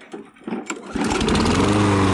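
A small lawn mower engine with a new coil, spark plug and wire and a cleaned carburetor starts on the first pull: a few short cranking rasps, then it catches and settles into a loud, steady hum.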